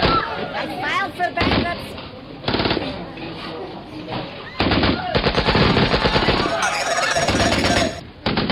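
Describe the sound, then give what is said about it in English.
Automatic gunfire from a film trailer, with cartridges being emptied in several loud, rapid bursts of shots separated by brief pauses. “You've emptied all our cartridges. Can you even afford all these bullets?”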